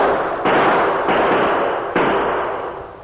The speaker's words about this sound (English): They searched the walls and the floors of the cavern with their bullets, until Greenway called a halt.